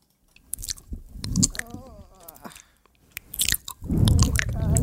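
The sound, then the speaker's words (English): Close-miked ASMR eating: loud, wet crunching and chewing comes in bursts, separated by quieter squishy, moist mouth sounds and brief pauses. “It's like just... listening to someone eat on mic. That's what it's like.”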